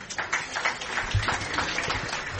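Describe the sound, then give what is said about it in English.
An audience at an Overeaters Anonymous meeting claps after a member mentions losing over 100 pounds. The applause is steady and moderately loud, with a slightly uneven pulse that carries through the whole clip. “it makes me laugh when people clap when I say I'm a 100-pound winner”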